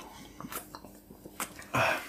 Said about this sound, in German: Drauf trinken wir einen Schluck.